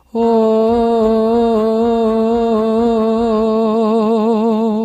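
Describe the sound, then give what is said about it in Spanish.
A single sustained sung note carries vibrato that oscillates between two close pitches. It begins nearly steady, then the wobble quickens into a fast vibrato, loud and alone. “Vibrato es simplemente una oscilación entre dos notas. Y luego se acelera.”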